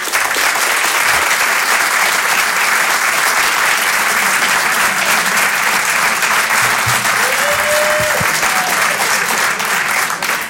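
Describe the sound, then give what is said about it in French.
Audience applause and an ovation at a French comedy show: dense, loud, steady clapping from a large crowd that continues without a break for the whole ten seconds. “Faites une ovation pour Edgar Yves.”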